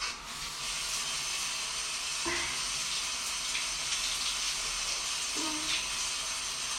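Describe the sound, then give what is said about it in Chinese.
Water runs steadily from a tap after a pipe repair, a continuous broad hiss that holds at an even level from start to finish with no voices. “水管已经修好了。真的太谢谢你了，王先生。我就快洗好了”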